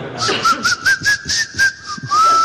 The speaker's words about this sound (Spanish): y también sé silbar con los dientes.